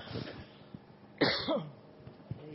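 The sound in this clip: A person's cough: one harsh, breathy burst with a short throaty tail after it, moderately faint, set among quiet low murmurs and small noises.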